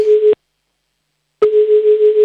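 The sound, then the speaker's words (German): A telephone line tone sounds for an outgoing call to Vienna: a loud, steady mid-pitched tone breaks off briefly, then resumes and holds to the end, with no voices. “So, nächster Anruf ist dran, der geht nach Wien.”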